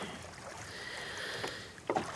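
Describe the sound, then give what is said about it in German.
Oars pulling a rowboat across a lake, with a steady soft watery swish and a small splash near the end. “Gut machen Sie das. Aber hören Sie doch mal auf zu rudern.”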